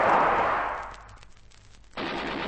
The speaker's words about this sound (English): They've opened fire on him. Shoot quickly.